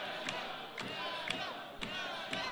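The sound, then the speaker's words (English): A crowd at a Warrior wrestling event chants rhythmically in support of a wrestler. Loud voices ring out with five evenly spaced, sharp beats about half a second apart, over a constant crowd roar. “Crowd here at Warrior definitely behind Daga.”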